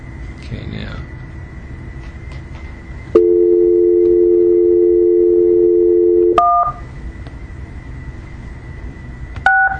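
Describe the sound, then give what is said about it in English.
Telephone dialing tones while redialing into a conference call: a steady dual dial tone holds for about three seconds, then a couple of short, higher keypad beeps follow over a faint low background hum. “I'm going to hang up. I can't hear anything on the other line, so I'm going to hang up and redial into the conference call.”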